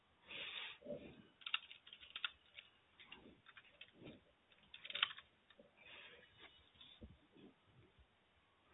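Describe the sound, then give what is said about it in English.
Computer keyboard typing while notes are entered during an interview, with soft, irregular key clicks in uneven bursts and brief pauses, faint and with no talking. “Do apologize about the quietness. I'm just trying to type everything in and make sure I'm not missing anything.”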